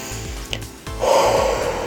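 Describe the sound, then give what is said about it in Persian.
A deep breath is drawn in slowly as a broad, airy hiss lasting about a second, over a soft, steady, pulsing low beat. “با هم دیگه نفس عمیق بکشید.”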